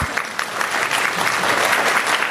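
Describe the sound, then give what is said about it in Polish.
Audience applause breaks out abruptly and swells into loud, sustained clapping from a large crowd, holding steady to the end. “Proszę Państwa, na tak wielkie brawa.”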